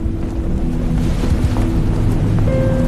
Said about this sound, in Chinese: 风声雨声被吹拂的旗声，被撕裂着的帆声